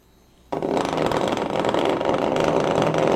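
A vibrator switches on with an abrupt start after a brief quiet moment, then gives a loud, steady, raspy motor buzz that holds without pause to the end.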